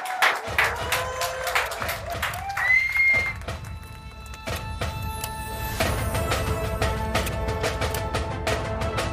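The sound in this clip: Live audience clapping and cheering to welcome three hosts onto a stage, a dense, loud patter of hands from a crowd that stays strong across the whole stretch.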